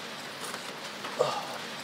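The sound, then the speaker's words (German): Light rain keeps up a faint, steady hiss with a brief, slightly louder patter partway through. “Es regnet sich ein. Also eben dachte ich ja nur, es nieselt ein bisschen, das könnte ja entspannter werden, aber tatsächlich.”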